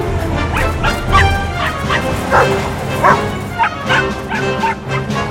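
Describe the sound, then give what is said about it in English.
Puppies bark, yip and whimper as they chase a truck down a dirt road. Many rapid, high-pitched yips and whines overlap above a continuous low rumble. “The truck turns down a dirt road. Mom! Dad! The puppies chase it. Come back here! Wait! Stop!”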